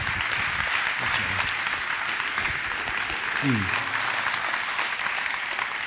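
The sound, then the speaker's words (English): A church audience in Kansas City applauds to welcome a guest preacher, with steady, dense clapping throughout and a few voices briefly audible in the crowd. “So I want you to put your hands together and give a big Kansas City welcome to Clayton King as he comes to minister to us today.”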